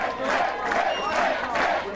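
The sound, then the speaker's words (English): Crowd cheering at Mitt Romney's New Hampshire headquarters after his Republican primary win, a loud, continuous roar of shouting voices and whoops with a little applause underneath. “Cheers erupting at Mitt Romney's New Hampshire headquarters as the former Massachusetts governor cruised to an easy victory in the Republican primary there.”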